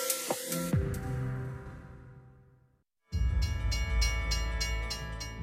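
Moving train on railway tracks rumbles loudly and fades away. After a brief silence, a second stretch of train noise returns with rhythmic clacking bursts.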